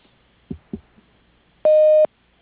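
A voicemail answering machine tone: a single steady, mid-pitched beep of under half a second, preceded by a couple of soft thumps.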